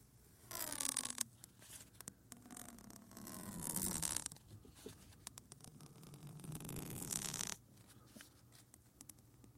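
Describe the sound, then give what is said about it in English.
Tape being peeled and ripped: a few long, quiet, scratchy tearing strokes separated by short pauses, with no voices. “I rip the tape now, doth I do.”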